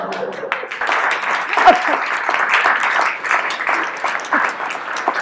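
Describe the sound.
Audience applause breaks out in a studio show setting, a dense, steady patter of many hands clapping that holds at an even, moderately loud level for about five seconds.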